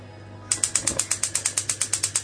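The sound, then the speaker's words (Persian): Rapid, evenly spaced clicking of a built-in gas hob's integrated spark igniter being lit. The sharp ticks begin after a brief pause and repeat steadily over a faint low hum. “اجاق گازم رو روشن میکنم. اجاق گاز من از این صفحه‌ای های توکار هستش که خودشم فندک داره”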